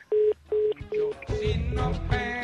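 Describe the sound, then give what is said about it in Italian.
Busy tone on a telephone line after the caller hangs up: three evenly spaced, short mid-pitched beeps, then more beeps continue under a louder, fuller musical sound that enters midway. “Ma come si permette di chiudermi il telefono in faccia?”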